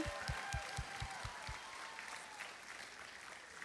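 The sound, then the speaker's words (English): Audience applause for graduates at a graduation ceremony. The clapping is dense and steady, filling the whole stretch at an even level with no talk over it. “Can we give it up one more time Woo! For our graduates?”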